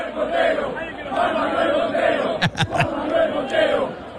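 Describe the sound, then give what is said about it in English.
A crowd chants a man's name in unison, a dense rhythmic swell of many voices that holds steady throughout. “They started chanting this guy's name. You have some audio of it, right?”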